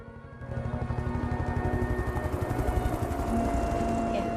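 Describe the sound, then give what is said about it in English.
An army helicopter over a desert wadi: a steady, rhythmic rotor chop with a low engine drone that rises from near silence and then holds at a fairly even level. “an army helicopter comes into view.”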